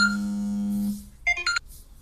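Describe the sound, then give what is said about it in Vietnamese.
A telephone rings with an electronic tone: a sustained, buzzy low note gives way to a short cluster of higher-pitched beeps. It is fairly loud and heard alone. “xin lỗi các bạn, thì có điện thoại.”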